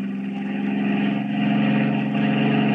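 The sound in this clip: A car's engine drones steadily as the car drives downhill, with a continuous low hum that swells slightly in the second half and no pauses.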